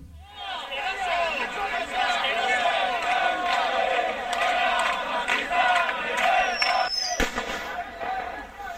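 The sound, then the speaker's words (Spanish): A rioting crowd shouts during a protest against a far-right agitator's event on a university campus in Navarra. The din of many voices is dense and continuous, and near the end a single sharp bang cuts through. “Y este es el sonido de los disturbios que se producían con la convocatoria del agitador ultra en el campus navarro.”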